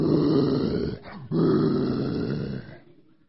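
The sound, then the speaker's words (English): A human voice imitates a big sea lion with two long, low, rough growling bellows separated by a brief pause, the second trailing off. “And all I can hear is that big sea lion going,”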